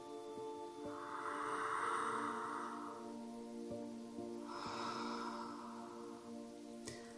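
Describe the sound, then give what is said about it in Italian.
Faint mouth breathing during a bioenergetic exercise class: two long, soft, airy breaths, each lasting a couple of seconds and separated by a short pause, over a steady, quiet tonal hum. “inspira ed espira dalla bocca.”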